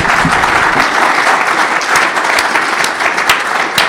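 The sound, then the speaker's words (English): Sustained audience applause at a live show, a dense, steady patter of many hands clapping at even loudness from start to finish with no break. “Let's give Jack a round of applause”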